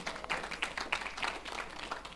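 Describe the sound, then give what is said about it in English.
A church audience applauds people who have just been baptized. The clapping is modest and steady, with a quick, even patter of many hands at moderate loudness. “We had some baptisms this year, and these are the wonderful people that were baptized this year, and it's just exciting just to see. Yeah, you can clap these guys.”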